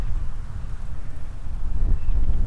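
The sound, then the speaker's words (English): Strong coastal wind near Torcross buffets the microphone in a low, gusty rumble. It surges and eases unevenly and grows a little stronger toward the end, with no voices. “The wind hasn't relented all day long.”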